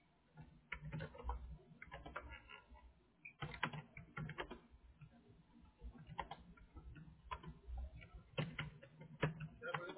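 Typing on a computer keyboard: many quiet, irregular key clicks come in bursts and pauses, with a few sharper taps standing out over a soft, muffled background.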